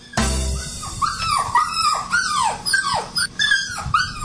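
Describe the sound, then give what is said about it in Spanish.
A stressed dog whimpers indoors in a household, letting out a long run of high, wavering whines that rise and fall in arcs, almost without pause and with no other sounds. “Mira, hasta el perro está estresado en esta casa.”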